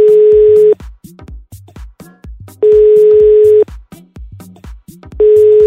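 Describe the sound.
A telephone ringback tone sounds as a call is placed: three steady mid-pitched tone bursts of about a second each, evenly spaced, with voices talking in the gaps between them.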